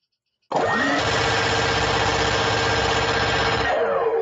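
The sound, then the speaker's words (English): Minigun spinning up as a sound effect for rapid fire: an abrupt onset with a whine that climbs in pitch, then a steady, loud mechanical whirring drone for about three seconds before the whine drops away at the end. “I will spin it up. Hit it. I'll spin up the minigun. Oh, we've got a new minigun too for the rapid fire.”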